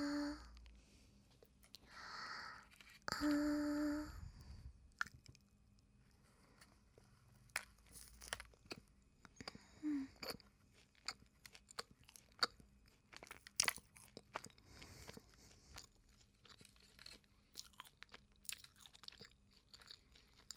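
Crunching and chewing of a sweet snack filled with rose petals: one loud crunchy bite, then many smaller, irregular crunches and chews at moderate loudness.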